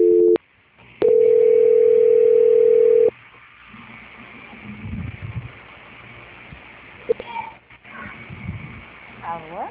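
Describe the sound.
Telephone line tone during a call transfer: a brief beep, then a steady, loud, evenly pitched tone lasting about two seconds, followed by quieter line noise with a few clicks and voices.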